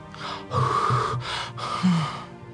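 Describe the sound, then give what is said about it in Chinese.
Breath blown out onto freezing hands, four soft breathy puffs in quick succession with faint low voicing beneath them. “小女孩心里一边想着，一边对着快冻伤的手掌呼气。”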